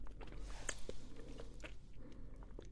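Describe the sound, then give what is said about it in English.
Soft chewing of a Tootsie Roll flavored candy, quiet sticky mastication with a few small crunching bites scattered through a low background. “I'm not the biggest fan of Tootsie Rolls, so I'll give this one a 5, because I don't really like Tootsie Rolls, but these taste like Tootsie Roll.”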